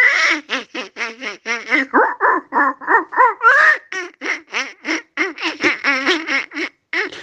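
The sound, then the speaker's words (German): A voice imitating a cartoon duck's quacking laugh: a long, rapid run of many buzzy, nasal quack-like bursts in a steady, bouncing rhythm, loud and alone throughout. “Und wenn man das schafft, kann man einfach als Donald Duck ein bisschen lachen, bis die Federn fliegen.”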